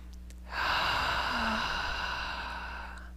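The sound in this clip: A single deep breath, a long, soft, airy inhale that swells suddenly and then fades slowly over nearly three seconds, with a faint low hum beneath.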